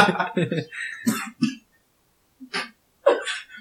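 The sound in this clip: Coughing from a person choking on saliva comes as a few short, sharp bursts separated by pauses, after some brief speech.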